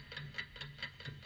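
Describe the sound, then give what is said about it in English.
Countdown clock ticking on a letter-puzzle game show, a steady run of quick, evenly spaced ticks with a bright metallic edge, alone with no talk. “There's the clock.”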